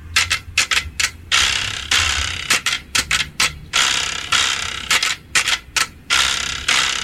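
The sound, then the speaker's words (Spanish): A carraca ratchet rattle is spun in uneven bursts, some short and choppy and others longer, each a loud, dry, rapid clatter of clicks. “Así suena la carraca.”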